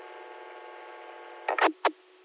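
Steady buzzing hum of a computer cooling fan, resembling the drone of a welding machine, runs continuously at a low level, with a few brief louder bursts near the end.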